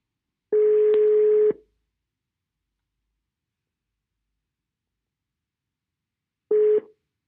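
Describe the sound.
Ringback tone of an outgoing telephone call: one steady low beep lasting about a second, then a long silence before a second, much shorter beep that cuts off.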